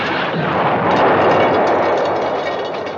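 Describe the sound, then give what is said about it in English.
Artillery fire in wartime Korea: a dense, continuous roaring rumble that stays loud and steady throughout, without distinct separate blasts. “Artillery. Ours? And theirs.”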